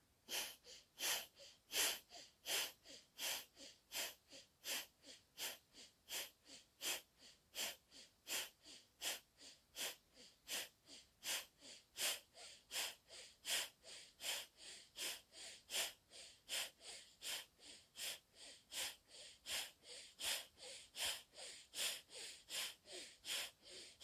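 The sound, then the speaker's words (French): Rapid, forceful breaths through the right nostril with the left nostril held closed, repeating in a steady fast rhythm for the whole stretch with no talking. “On viendra se préparer à le faire sur la narine droite. Alors on vient fermer la narine gauche. On prendra une inspiration et on commence.”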